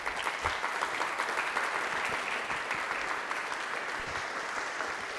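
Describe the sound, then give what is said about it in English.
An audience welcomes a guest speaker closing out a talk series on Brookline housing with steady, even applause. Many hands clap densely and keep a constant loudness throughout. “Can you give her a warm welcome, please?”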